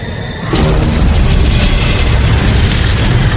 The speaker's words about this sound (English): Was anyone scared when that fire just came out of nowhere?